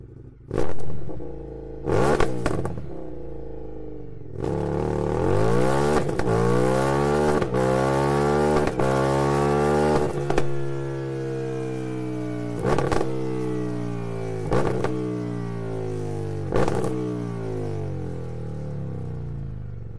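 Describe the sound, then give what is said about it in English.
A twin-cylinder motorcycle with an aftermarket Akrapovic exhaust barks through a few sharp blips, then idles and revs repeatedly, its deep engine note rising and falling, punctuated by loud pops and crackles. “It's a twin. Okay, it's a twin. There's a pops and crackers. Sounds quite high performance, but... Yeah, so it's aftermarket exhaust. Aftermarket exhaust, Akrapovic again.”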